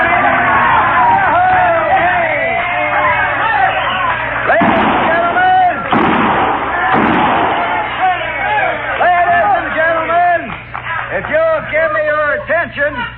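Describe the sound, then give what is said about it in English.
Six-gun shots fired inside a saloon ring out as a few sharp, loud bangs midway through, set among a busy crowd of talking voices and babble. “Kindly refrain from shooting six guns in the establishment, because the next man that does it is going to get thrown out on his saddle.”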